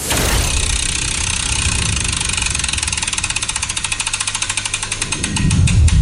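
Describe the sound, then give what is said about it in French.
A prize wheel, launched to pick which game to play, spins with rapid, regular ticking clicks over a broad whirring noise. The ticks stay sharp and evenly paced for several seconds. “J'ai une roue devant moi, une roue que je vais lancer là maintenant et on va voir à quel jeu on va jouer.”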